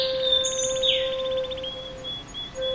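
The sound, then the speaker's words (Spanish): Canaries sing in bright, high-pitched chirps and rapid trills. A quick run of repeated notes stands out in the first half, and a few lighter tweets follow. “Nota la presencia alegre y melodiosa de los canarios, cantando en armonía con la naturaleza.”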